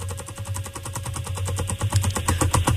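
A prize wheel spinning at a game-style prize draw for store gift cards, giving a fast, even train of sharp clicks over a low steady rumble, with no voices.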